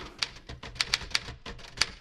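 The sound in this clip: A Remington typewriter being typed on gives sharp, fairly faint key clicks at uneven intervals, several strikes in quick succession with short pauses between them and no voices.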